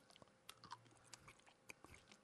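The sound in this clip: Faint crunching and biting as someone chews a wasabi-flavoured hard candy, with many small, irregular crackles and a few sharper snaps.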